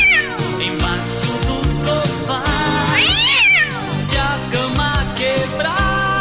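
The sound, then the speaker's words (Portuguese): Cat meows over a pounding dance beat in a live DJ set, with drawn-out meows that rise and fall in pitch cutting through the loud music. “Oh, olha o gato, olha o gato. Em cima do telhado.”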